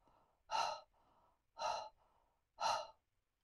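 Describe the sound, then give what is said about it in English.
Slow, segmented exhales through a rounded mouth during a breathing exercise: three soft, breathy bursts at an even rhythm with quieter breaths between. The sound is faint and there is no speech. “slowly exhale through your rounded mouth in 8 equal segments”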